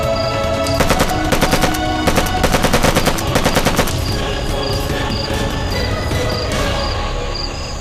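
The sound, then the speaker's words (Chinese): Gunfire aimed at a watchtower: dense, rapid bursts of many shots crackle without a break, heaviest in the first half, over a constant roar of firing. “还真是有人向炮楼开火了。你听，就是不知道是哪支队伍。”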